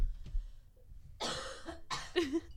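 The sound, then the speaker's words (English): Harsh coughing from a person in the middle of a conversation: a few loud, rough bursts in quick succession, heard alone with no talk over them. “god, I wish I could stop coughing.”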